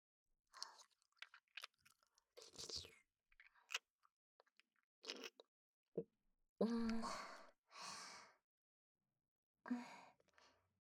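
Close wet mouth sounds of someone eating and chewing: a few soft smacking, crunching bursts separated by pauses, with a sigh-like breath, faint and intermittent.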